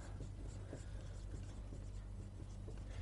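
A diagram is drawn by hand, a faint, continuous scratching of quick strokes over a low steady hum.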